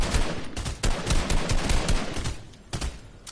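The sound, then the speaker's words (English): Gunfire in a video game firefight: many sharp cracks and bursts in quick, irregular succession, loud and dense, easing briefly near the end before a final volley. “Okay, well, I guess we're shooting. I guess we're shooting now.”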